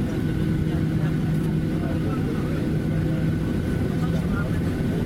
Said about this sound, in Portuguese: Petrolina, entrou. Vamos nos preparar para a decolagem.